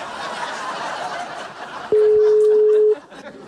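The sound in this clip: Telephone ringing tone as a call is placed: soft chuckling first, then a single loud, steady mid-pitched tone lasting about a second before cutting off.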